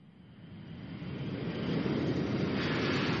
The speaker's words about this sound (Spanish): tan solo tienen que cerrar sus ojos y soñar, porque tomamos tierra y despegamos